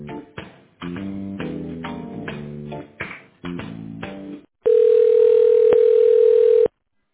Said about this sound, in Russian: Ожидайте, пожалуйста, ответа оператора.